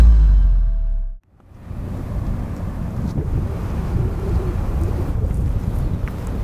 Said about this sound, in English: We're standing in the middle of an enormous wind turbine farm, which stretches as far as the eye can see in the middle of the Great Plains in West Texas.